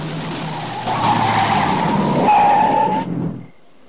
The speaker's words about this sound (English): He comes to a halt next to the sergeant's car.